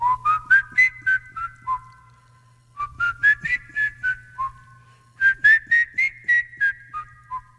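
A person whistles scales as a warm-up: three runs of clear, evenly spaced notes, each climbing step by step and then dropping back. The runs are separated by short pauses over a faint low hum, with no voices.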